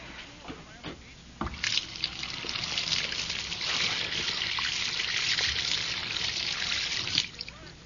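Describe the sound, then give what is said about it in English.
Water runs and trickles steadily down a free-flowing sink drain, a continuous soft gurgling wash that swells after a couple of brief knocks and holds fairly even before tapering. “There's nothing like a nice, free-flowing drain.”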